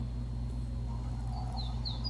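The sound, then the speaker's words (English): Birds singing in a backyard: faint, short high chirps, a few of them near the end, over a steady low hum. “I could sit and listen to them birds all day.”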